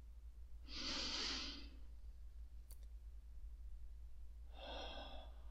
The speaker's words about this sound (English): First, ground into this meditation and land by taking 3 deep breaths.